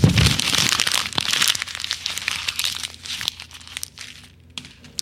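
Paper is crumpled into a ball, a discarded false-start sheet meant for the waste paper basket, giving a continuous crackling crinkle that is loudest at first and then thins out into fainter scattered crackles.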